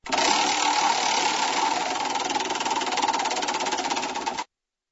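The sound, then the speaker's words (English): A prize wheel spins with a rapid, steady ratcheting clatter that stays loud and even for about four and a half seconds, then cuts off abruptly. “What do you say about giving a spin to the old wheel of anger?”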